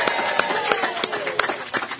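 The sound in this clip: An audience at a national ACB convention claps: a few distinct claps at a fairly even pace over a murmur of voices.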